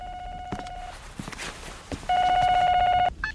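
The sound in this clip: Telephone ringing in two electronic bursts of a steady, buzzy tone: a fainter burst first, then after a pause a second, much louder one lasting about a second.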